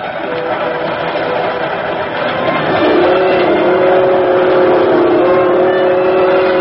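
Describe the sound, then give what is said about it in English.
Steady rumbling of a local passenger train riding at night, a continuous loud low roar with no breaks. Partway through, a droning tonal whine rises out of the rumble and holds to the end. “Somehow, that sound is the most lonesome sound in the world. But maybe that's because I feel so alone on a train late at night.”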